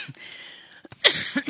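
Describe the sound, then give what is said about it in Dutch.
Dry, tickly cough from a person with an irritating cough since a booster vaccination: a few short, harsh bursts near the end, following a quiet, breathy stretch. “Ik heb sinds ik geboosterd ben een rare prikkelhoest.”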